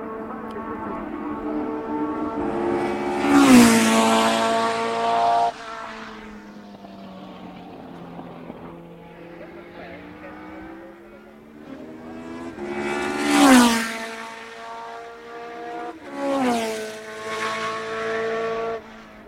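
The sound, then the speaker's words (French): A race car engine downshifting hard at the end of a straight: a loud, harmonic roar with sweeping pitch changes and a few sharp rev surges that rise abruptly and then fall away. “Fin de ligne droite, rétrogradage à la limite.”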